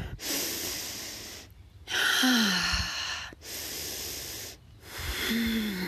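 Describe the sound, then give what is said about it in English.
Slow, hissy breathing during a yoga pose, with a few long breaths in and out separated by short pauses, each airy and fairly loud. “We'll breathe together for five.”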